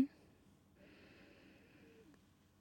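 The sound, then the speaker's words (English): A deep breath is drawn in during a guided meditation, a faint, airy inhale lasting over a second after a brief click at the start. “So first, 3 deep breaths. Deep breath in.”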